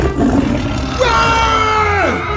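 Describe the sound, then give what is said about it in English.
A tiger's roar rises out of a low rumble: loud, drawn-out and harmonic-rich, sliding downward in pitch near its end, with steady background sound underneath throughout. “Is that tiger supposed to be out?”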